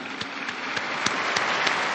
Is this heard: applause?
yes